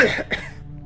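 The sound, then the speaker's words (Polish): A man's cough, two harsh bursts in quick succession with the second one shorter, heard alone and trailing off into faint background noise. “kaszel nasila się”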